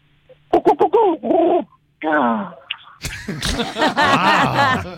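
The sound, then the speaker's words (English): A man vocally imitates a stoned ostrich with a run of short, rapid hooting coos, then longer wavering, gurgling calls that grow louder and more ragged toward the end. “what would a stoned ostrich sound like?”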